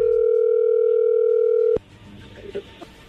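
A steady telephone tone on an outgoing call holds one unbroken pitch for almost two seconds, then cuts off abruptly, leaving faint line noise and a few small clicks.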